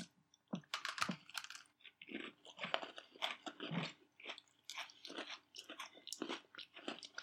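People chewing and biting into food meant to taste like strawberry shortcake, with many crisp, irregular crunching bites in quick succession and no talking.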